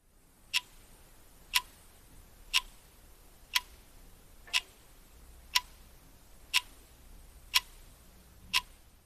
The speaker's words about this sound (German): das ist der Wecker, der auf meinem Nachttisch steht.